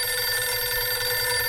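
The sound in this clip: Telephone ringing with an incoming call: a continuous electronic ring of layered steady tones. It stays even and loud for the whole moment, with no voices.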